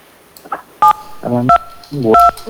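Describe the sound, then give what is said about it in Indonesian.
Telephone keypad tones sound as a caller presses number keys during a phone-in call, a few sharp dual-tone beeps in quick succession alongside other faint line sounds. “Nomornya tertekan tuh, Bang.”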